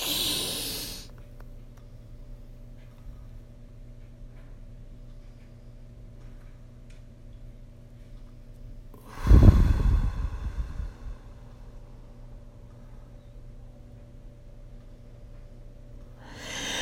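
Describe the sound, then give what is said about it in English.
A deep, forceful breath out during a breathing exercise: one loud, rushing burst of air after a long stretch of near-silence, fading back into quiet. “One, breathe out all the negative air. Two, three, breathe in deep and hold it as long as you can.”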